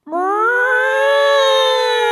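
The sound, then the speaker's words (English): A human voice imitates a cat meowing as a mock alarm. It makes one loud, drawn-out meow that climbs slightly at the start, then holds a steady, nasal pitch. “That's a cat alarm.”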